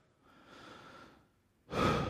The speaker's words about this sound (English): Take a deep breath.